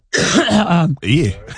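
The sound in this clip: Someone clears their throat loudly with a cough, in two rough, gravelly, voiced bursts separated by a brief gap.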